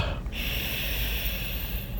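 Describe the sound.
A person sniffs, breathing in a scent through the nose in a sustained, breathy nasal inhale over steady low background noise.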